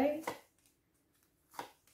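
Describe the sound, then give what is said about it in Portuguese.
Tarot cards drawn from a deck make two brief, quiet papery flicks, well apart from each other, with near silence in between. “Vou tirar aqui só mais umas, umas cartas aqui”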